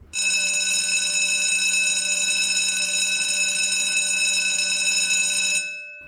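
Electric school bell ringing for class, a loud, steady metallic ring that holds without a break for about five and a half seconds, then stops abruptly and fades, with no voices.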